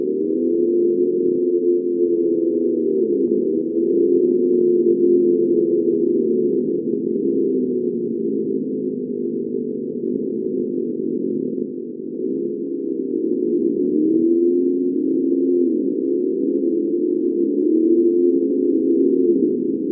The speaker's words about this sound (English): This low, constant droning noise. I tried recording it in my bathroom, where the sound was the clearest.